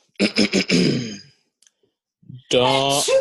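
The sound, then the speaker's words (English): A sneeze cuts in as a few sharp, breathy bursts of noise, followed by a brief silence before a man starts talking. “really? You had a sneeze?”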